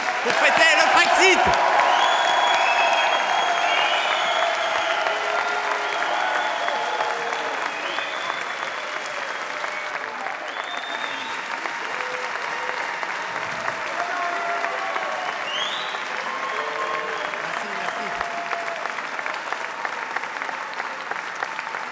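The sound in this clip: Sustained audience applause, an ovation for guests at an evening gathering: steady, dense clapping that starts loud and eases slightly as it carries on for about twenty seconds.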